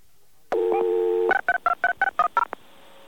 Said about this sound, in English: Listen to the dialing. Listen to how long the call takes to go through.